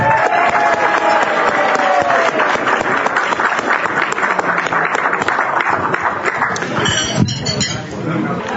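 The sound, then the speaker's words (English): Audience applause at a meal gathering: dense, continuous clapping from many hands, loud and steady for several seconds before thinning slightly near the end. “Let's give one more round of applause for Frank.”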